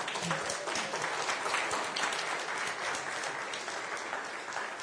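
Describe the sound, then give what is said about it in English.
Applause fills a gathering welcoming a new baby boy: steady, even clapping from many hands, fairly faint, running without a break for the whole stretch. “Let's give him a big hand.”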